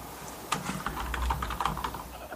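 Typing on a computer keyboard to look up a word online: a quick, irregular run of many sharp key clicks.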